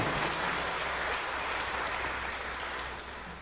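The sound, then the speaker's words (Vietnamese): An audience applauds in a lecture, a dense, continuous clatter of many hands clapping that holds steady and then tapers slightly toward the end. “Quý vị vỗ tay cho chính mình nào.”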